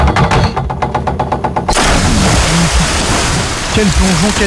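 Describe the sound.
Splash of a dive into water: a quick run of rhythmic ticking pulses gives way to a sudden broad, rushing splash that keeps surging, with voices heard over it toward the end.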